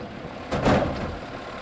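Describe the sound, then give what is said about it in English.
Garbage truck lifting green and brown plastic garbage cans on a street in front of an elementary school: a brief, loud, noisy clatter over a steady engine rumble. “Charles French sits in a massive garbage truck working the controls that pick up green and brown plastic garbage cans and slam them back onto the street.”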